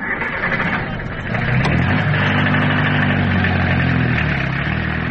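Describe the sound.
A taxi's car engine runs with a low, steady mid-pitched hum. It grows slightly louder after the first second and holds an even drone to the end, with no voices.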